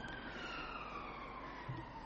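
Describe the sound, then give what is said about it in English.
An ambulance siren passing by outside, a faint, steady wail that drifts slightly lower in pitch over a broad bed of background rumble. “There seems to be a new ambulance run down here. We had that going past this morning, didn't we?”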